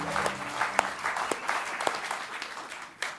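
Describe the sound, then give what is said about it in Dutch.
At a Sunday church service, an audience gives the band a hand. The clapping is faint and scattered, with a few sharper claps standing out. “And we can give the band a hand too, guys.”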